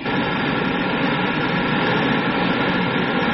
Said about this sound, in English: Better start braking again. I'll open the auxiliary retrojets.